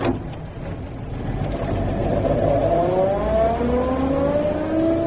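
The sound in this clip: Car engine revving as the car pulls away, a loud, steady growl whose pitch climbs smoothly as it accelerates, with no voices.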